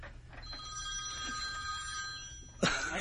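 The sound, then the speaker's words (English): An alarm ringtone that mimics a telephone ring sounds steadily, with thin sustained tones over a low hum, ending in a sudden louder burst. “So imagine your alarm goes off and she thinks it's a phone.”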